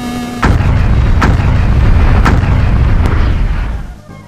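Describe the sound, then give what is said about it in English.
A level 4 Flame Ball fire spell erupts in a loud, rumbling explosion, a sustained roaring blast with a few sharp crackling bursts inside it that fades out near the end. “I call upon the blazes. Flame Ball, level 4!”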